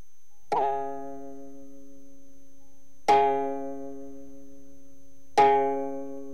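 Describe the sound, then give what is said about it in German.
A berimbau string struck three times for its bass fundamental tone, each strike a sharp twang that leaves a steady, low humming note slowly fading until the next one. “Wenn wir die Saite anschlagen, ergibt sich der Grundton bzw. der Basston des Berimbau.”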